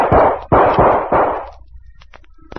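Four loud, sharp gunshots from a gun fired during a fight, coming in quick succession, each followed by a short booming decay, then faint scattered clicks.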